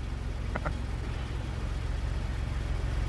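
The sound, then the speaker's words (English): A car drives up at the end of a film scene, heard as a steady, low engine rumble under broad, even road noise that holds at a constant level throughout. “And that's John Hamm driving up at the end of that scene.”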